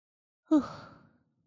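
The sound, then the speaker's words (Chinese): A single deep breath during a guided relaxation exercise: one soft, breathy sigh that starts fairly loud and fades away over about half a second, heard alone in silence. “试着做一个深呼吸，吸气，吐气。”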